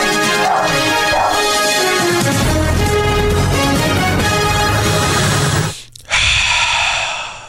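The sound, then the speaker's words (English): A deep breath, loud and drawn out for several seconds, drops into a brief silence before a second breath sound follows. “Sometimes a good breath really helps the day.”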